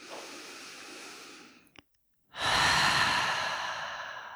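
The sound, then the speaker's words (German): Deep breaths out through an open mouth during a guided relaxation exercise. Two long, airy exhales are separated by a brief silence, and the second is louder and fuller. “Und nimm ein paar tiefe Atemzüge ein und aus. Und gerne mal durch den geöffneten Mund hier loslassen.”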